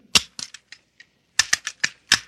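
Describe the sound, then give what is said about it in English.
Sharp metallic clicks and snaps of a pistol being reassembled as the firing pin goes back in: a loose run of clicks, a brief pause, then a quicker cluster of firm snaps. “Now, let's see you put back the firing pin.”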